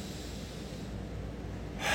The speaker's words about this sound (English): And I want you to take a deep breath through your left nostril, okay?